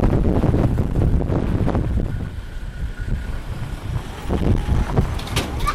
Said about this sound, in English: Wowee, the wind is incredible. The Land Rover just way past now. Oh God, wind's blowing dust and all kinds.